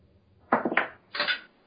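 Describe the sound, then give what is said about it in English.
A die dropped onto a table clatters in a quick run of bounces and rattles, followed by a second short rattle. The sound is sharp and brief, with no talk. “I just dropped a dice.”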